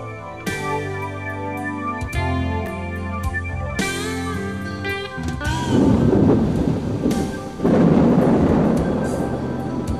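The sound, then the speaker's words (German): Heavy rain with thunder at midnight in a ruined, radioactive city sector during a climate-control failure. A droning tonal passage gives way midway to loud, broad rushing rain with low rumbling. “Passendes Wetter. Heftiger Regen, Blitz und Donner.”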